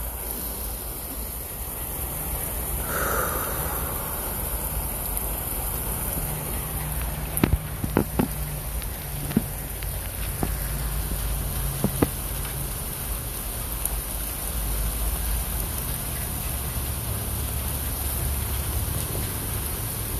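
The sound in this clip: Steady rain falls on a rainy day as a soft, even hiss that stays faint and continuous throughout, with a few sharp drip-like ticks scattered through the middle.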